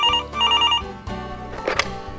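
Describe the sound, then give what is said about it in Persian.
A telephone rings in two short trilling bursts of a bright, bell-like tone, followed by a few softer knocks and handling sounds. “همون لحظه من کنار تلفن نشسته بودم و انتظار می‌کشیدم که آقای واشنگتن از دیترویت با هم تماس گرفت.”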